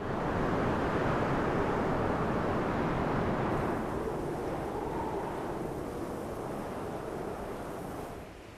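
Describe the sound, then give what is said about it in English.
Wind buffeting the microphone at the start of a video: a loud, continuous roaring rush of noise that eases slightly partway through and tapers off at the end. “You hear the wind in the very start of the video.”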